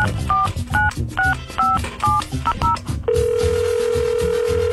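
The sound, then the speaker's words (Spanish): Telephone keypad tones as a number is dialed: a quick run of short two-pitch beeps, then a steady, continuous line tone, over a low rhythmic background. “Vamos a marcarle. Ahí vienen los de producción. Pásame el contacto. Ahí márcale.”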